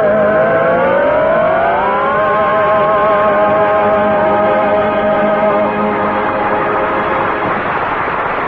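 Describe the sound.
A car engine drives off into the woods, loud and continuous; its whining tone climbs in pitch early on, then holds a steady, droning note to the end.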